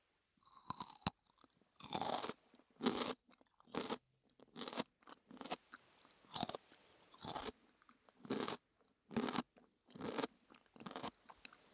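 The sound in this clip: Raw cucumber crunches crisply as someone bites and chews it: many sharp, bright bursts in an uneven rhythm, separated by quiet gaps, with no talking.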